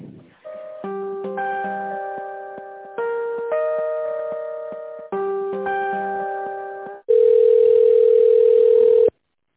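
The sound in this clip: Telephone tones play while a call to a company is transferred to its accounting department: a repeating electronic beeping melody in three phrases, then one long, loud, steady tone lasting about two seconds.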